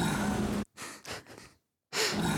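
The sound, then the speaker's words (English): A person exhales audibly through the mouth during a pause in a song. The music cuts off abruptly, a few breathy, airy puffs follow in near silence, then the full music returns. “the whole song stops just so, like, someone can exhale. Sounds like someone making a noise with their mouth.”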